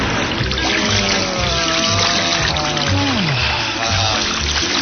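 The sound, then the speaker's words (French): Someone wades and splashes through river water, with a steady sloshing and trickling that runs throughout. “Qu'on est bien là, au soleil, à patauger dans l'eau.”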